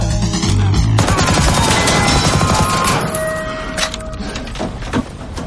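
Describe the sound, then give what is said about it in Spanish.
Rapid gunfire as a man furiously shoots a public-address loudspeaker on a stepladder in an action thriller film. A loud, dense volley of rattling shots breaks into scattered sharp hits that gradually thin out. “dispara furioso al altavoz.”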